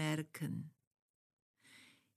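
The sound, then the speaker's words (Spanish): Slow, deliberate exhalation during a guided breathing exercise: a soft, airy breath of about half a second follows a brief speaking voice and a quiet pause. “y expiramos lenta y conscientemente”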